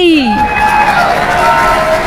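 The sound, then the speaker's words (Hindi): Audience cheering and applause for a young girl's performance, a steady, dense crowd roar that holds at an even level throughout, with a high whoop-like voice near the start. “ये तालियां जा रही हैं specially की आशा हसवानी के लिए।”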